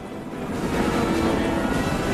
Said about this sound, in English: climbs aboard one of the choppers. The great aircraft dust off.